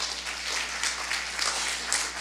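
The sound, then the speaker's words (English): A church audience gives a round of applause for soup kitchen volunteers, with steady, moderately loud clapping from many hands over a low constant hum. “So if in the last 12 years you've done something for Soup Kitchen, I want you to raise your hand. See the people that's helped? Give them a round of applause, everybody.”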